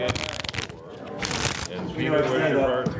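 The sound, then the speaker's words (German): Playing cards riffle-shuffled poker-style for a game of Schafkopf: two quick bursts of crisp flapping and rattling, followed by softer handling noise, with voices talking over it. “auch wenn die Karten in Pokermanier gemischt werden”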